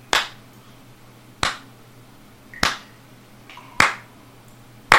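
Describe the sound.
Slow, isolated claps from a single pair of hands, five sharp slaps at steady intervals of a little over a second, each with a short ringing tail, over quiet low hum.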